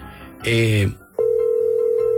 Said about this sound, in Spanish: Se cortó la llamada.